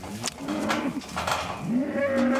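Calves and cows moo on a meadow during ear tagging, the calves just separated from their mothers. Several long, drawn-out, overlapping moos run loudly through the whole stretch, with no talk.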